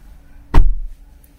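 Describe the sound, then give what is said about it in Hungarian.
A car's front door is yanked open: one sharp, heavy clunk with a short rumbling tail, standing alone in otherwise quiet surroundings. “Nem hagyja abba, jön, kinyitja az első ajtót, föltépi, még a képernyő is megmozdult.”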